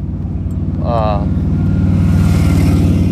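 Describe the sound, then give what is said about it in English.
Military tanks and other military vehicles passing, a deep, steady engine rumble with a low, droning growl that stays loud throughout and builds slightly. “I'm passing a bunch of tanks right now.”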